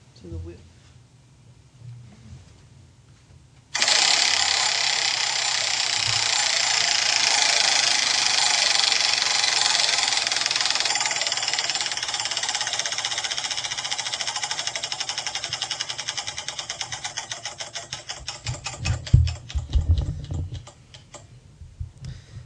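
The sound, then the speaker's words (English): A prize wheel spins with a rapid, clattering tick that starts abruptly after a quiet opening and runs steadily for many seconds. Toward the end the clicks grow louder and spread apart, slowing as the wheel comes to rest. “do you want to spin, that wheel? Heck yeah, I want to.”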